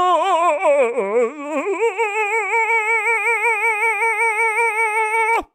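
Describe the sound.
A single voice mockingly imitates choir singing, holding a drawn-out sung vowel with heavy wobbling vibrato. The pitch wavers unsteadily at first, then settles into a sustained tone that cuts off abruptly.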